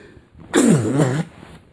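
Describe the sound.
One short, loud sneeze, a single voiced burst lasting about half a second, standing alone between quiet moments.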